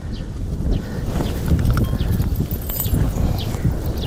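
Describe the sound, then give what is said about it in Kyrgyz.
A horse's hooves clop and shuffle during horseshoeing, with many irregular, fairly loud steps over a dense low background. “Мындайда Акылбек Усубалиев ат такалоо кызматын да көрсөтөт.”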